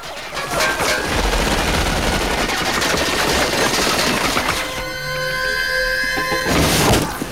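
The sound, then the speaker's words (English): A submachine gun fires a round: a dense, rapid crackle of shots runs continuously for several seconds, loud and unbroken. “an indignant elderly woman gets a submachine gun out of her handbag. She fires off a round of ammo”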